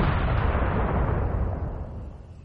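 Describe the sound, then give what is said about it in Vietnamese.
A loud explosion booms in the sky from fortress cannon fire, a dense low rumble that hits at full strength and gradually fades over about two seconds, with no voices. “Chúng lập tức bị bao phủ trong tiếng nổ mạnh trên trời.”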